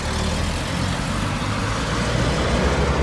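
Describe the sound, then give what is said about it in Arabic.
Road traffic noise, a dense, steady roar of cars and heavier vehicles rumbling past without a break, loud and even throughout with no voices. “انفو ترافيك”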